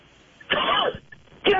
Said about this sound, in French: Pardon, excusez-moi, je m'étouffe.